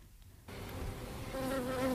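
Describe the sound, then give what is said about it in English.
Buzzing of guard bees around a beehive begins suddenly after a brief near-silence, then becomes a dense, steady drone that swells slightly, with a clearer humming tone standing out toward the end. “guard bees, sizable squadrons who keep an eye out for hapless reporters.”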